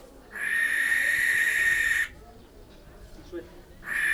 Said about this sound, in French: La chouette locale.